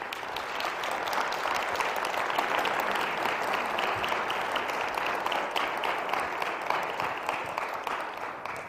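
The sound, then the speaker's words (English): An audience gives a guest a warm round of applause, steady, dense clapping that holds at an even level throughout with no voices on top. “Would you give her a hand?”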